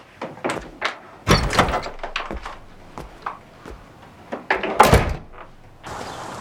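A front gate door of a house swings open with a run of knocks, clanks and rattling thumps, one louder burst near the end, followed by a steady hiss.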